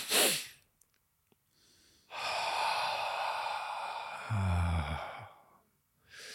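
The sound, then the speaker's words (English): A breathing exercise: a sharp nasal intake of breath, then a long, steady, airy exhale that ends in a low voiced sigh, followed by the start of another breath. No talking. “So the way you do it is two quick inhales through your nostrils and then a long exhale, preferably with a sigh at the end.”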